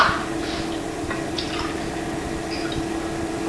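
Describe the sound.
Milk being poured, a steady trickling, splashing liquid stream that runs continuously at an even level, with no voices over it.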